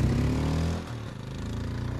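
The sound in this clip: Motorcycle engine running low and throbbing as the rider makes a tight U-turn, dipping briefly partway through, then settling back into a steady pulsing beat.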